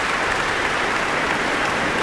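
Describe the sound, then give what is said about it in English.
An audience at a choral concert applauds the soprano and contralto soloists and the Swiss Radio Chorus: dense, even, continuous clapping with no break. “certainly for that audience too, who were applauding soprano Lina Lutens, Roberta Invernizzi as well, Gloria Banditelli, the contralto”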